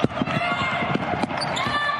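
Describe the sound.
A basketball dribbled on the court during a women's college game between Wisconsin and Iowa, with a rapid series of dull thumping bounces under a commentator's voice and steady arena noise.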